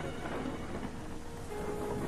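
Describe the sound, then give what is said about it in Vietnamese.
Rain and thunder of a storm blend into a steady, dense wash of noise with a low rolling rumble underneath, fairly quiet and even throughout, with no distinct peaks. “Ở bên ngoài, trời vẫn mưa gió đùng đùng, sấm sét vẫn đổ dồn dập, lập lòe.”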